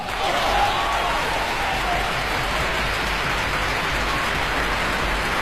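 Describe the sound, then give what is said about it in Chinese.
Applause for young classical musicians at the National Centre for the Performing Arts, a dense, even patter of clapping that stays loud and steady throughout. “他们绝对是中国古典音乐的未来，我们一定得给他们喝彩。”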